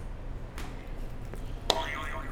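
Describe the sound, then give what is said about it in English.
A buzzer pressed during a game lets out one brief, bright electronic tone with a short ringing tail, over a low, steady background hum. “Can you hit the buzzer?”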